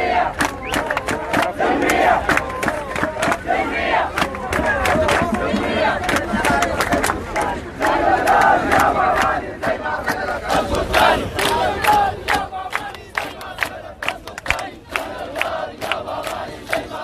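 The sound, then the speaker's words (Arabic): Protesters at a demonstration in Blue Nile, Sudan chant slogans together as a loud crowd, their voices rising and falling in rhythmic chants throughout. “وأكد المتظاهرين تضامنهم التام مع الشعب السوداني الصامد، حيث رفعت المتظاهرين شعارات وهتافات سقطت أول وسقطت ثاني. وأضاف المتظاهرين في النيل الأزرق في هتافاتهم:”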